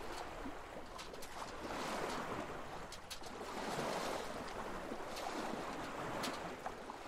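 Steady rush of water and wind as a small sailboat sails at sea off the coast of Reykjavík, a continuous soft hiss with gentle surges and a few faint knocks, no voices.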